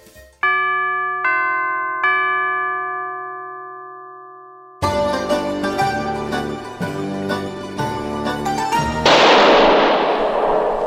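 A gunshot sound effect: a single loud crack with a decaying noisy tail, heard after three sustained ringing chime tones and a stretch of busy music.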